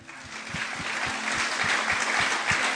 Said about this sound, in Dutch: Zal ik Monique een applaus geven?